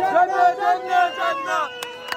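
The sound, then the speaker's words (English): A crowd in Rafah, Gaza cheers with shouting, sustained voices as people celebrate a ceasefire announcement, and a couple of sharp bangs burst out near the end. “They're cheering, honking car horns, setting off firecrackers.”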